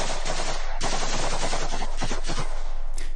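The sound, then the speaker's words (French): A burst of automatic weapons fire: rapid shots merge into a loud, harsh, continuous rattle that lasts the whole clip, with a few sharper cracks standing out near the end. “Timofi Mikhailovich Adoura, c'est le nom de cet homme, est abattu, froidement exécuté d'une rafale d'armes automatiques.”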